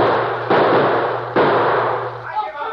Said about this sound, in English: Dirty cowards. They don't like it when someone shoots back at them.